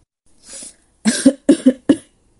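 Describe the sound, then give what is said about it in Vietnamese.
A man's dry coughing: a soft breathy sound, then a quick series of harsh, hacking coughs in close succession, loud and alone, with no talk. “Nghe tiếng ho khan của hắn”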